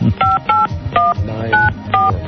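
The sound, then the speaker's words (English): Touch-tone keypad beeps as a telephone number to Glasgow, Scotland is dialed: a quick sequence of about six short, evenly spaced tones over a low background rumble. “All right, we are calling school teacher. That's the problem with the phone company. We're going to try again, Glasgow, Scotland.”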